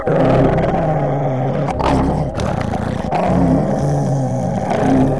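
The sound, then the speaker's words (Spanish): A cat's deep, gurgling growl rumbles beneath a bedspread on a bed, low and loud, throbbing steadily for several seconds with a few brief breaks. “Profundo borboteo que no llega a hacerse gruñido palpita bajo el largo cuello de Tula.”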